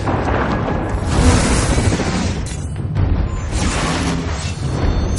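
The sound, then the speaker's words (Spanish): A magic ray blast fired and dodged in a 2016 fantasy action adventure film. A loud, dense, roaring rush of booming noise is sustained throughout, with no clear breaks. “Seth se da cuenta y le dispara un rayo que Horus esquiva.”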